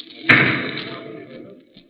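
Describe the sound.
A bowling ball thrown badly after a slipped foot, missing the pins: one heavy thud followed by a rumbling roll that fades over about a second, ending in a faint knock.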